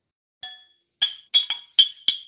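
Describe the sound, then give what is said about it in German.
Glasses clink together in a celebratory toast: six bright, ringing chinks, the first alone, then five in quick succession, each with a short shimmering decay. “Wir feiern jetzt ja auch noch ein kleines bisschen weiter und stoßen jetzt irgendwie, glaube ich, auch gleich nochmal kurz an hier.”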